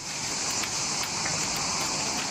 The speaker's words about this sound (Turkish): Suya döküyoruz. Suya dökünce yapraklar ve içindeki kirazın dışındakiler yüzüne çıkıyor. Temizliyoruz.